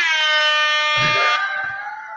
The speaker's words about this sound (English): the air horn